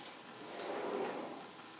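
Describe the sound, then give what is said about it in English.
A kitchen sliding door is pushed shut with a single smooth, rumbling slide that swells and fades over about a second. “Yeah, go in the in the kitchen and close the sliding door.”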